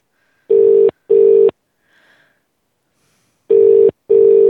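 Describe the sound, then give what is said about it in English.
Telephone dialing tones: four loud, steady, identical beeps in two pairs, separated by a long near-silent gap with only a faint brief blip. “I'm like trying to dial numbers.”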